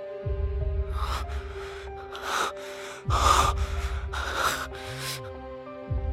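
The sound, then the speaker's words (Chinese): Rapid, increasingly hurried panting from a man, a run of loud, rasping breaths in and out over a steady low hum, with no talk. “宫应贤扭头瞪着他，张嘴想说什么，却只是愈发急促的喘息。”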